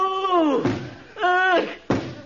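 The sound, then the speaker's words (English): Two dull thuds of a head banging against a wall, each one following a groaning voice that slides downward in pitch. “What you banging your head against the wall for?”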